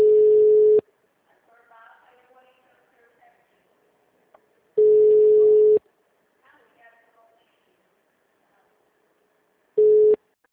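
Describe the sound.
A telephone busy tone follows a dropped call: three long, steady mid-pitched beeps spaced about four seconds apart, the last one cut short, with faint murmuring voices in the gaps between them.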